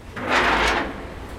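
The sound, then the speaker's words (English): A heavy steel door, shaped like a submarine hatch at a facility entrance, swings open with one soft, brief scraping swish that swells and then fades within about a second. “Visitors today can freely enter and leave via its 2 steel doors. So I think this first door I can handle.”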